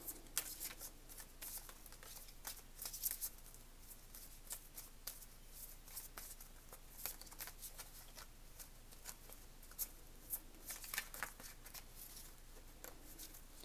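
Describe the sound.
Tarot cards are handled and drawn from a deck, making many faint, crisp flicking and rustling snaps scattered unevenly over several seconds.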